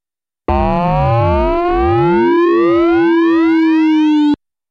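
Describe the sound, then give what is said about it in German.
Frequency modulation between two sine-wave synthesizer oscillators: one holds a steady carrier tone while the other slowly tunes upward, giving a loud, continuous metallic tone with sidebands that sweep and cross for about four seconds. “Beide VCOs geben eine sinusartige Kurvenform ab. Nun hören wir die direkte Frequenzmodulation zwischen den zwei VCOs.”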